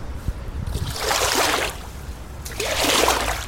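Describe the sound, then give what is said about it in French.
Water swishing and sloshing as a boat hook fishes a floating bottle out of the water beside a houseboat. Two broad, surging swishes rise and fade in turn, with a few light splashes at the start. “Ça nous permet de récupérer plein de choses, les trucs qui flottent sur l'eau. Donc je vais vous montrer la gaffe, comment ça marche.”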